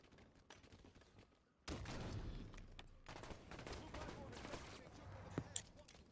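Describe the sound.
Enemy gunfire in a video game, a whole team shooting at once: a low, quieter patter of shots gives way to a sudden loud, dense volley of rapid reports, with a couple of sharp, louder cracks near the end.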